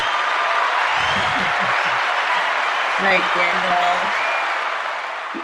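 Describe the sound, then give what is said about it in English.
Applause welcoming a guest, a children's book author, onto a talk show: steady, dense clapping that runs throughout with some voices mixed in, then tapers off near the end. “Please put your virtual hands together as we welcome Grace to Special Chronicles.”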